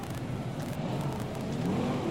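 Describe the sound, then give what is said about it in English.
Sprint cars roar around a speedway track during a championship race. A dense, loud engine drone holds steady throughout without a break, with a rising whine emerging toward the end. “So Peter Murphy's got two laps to go to win the New Zealand Sprint Car Championship”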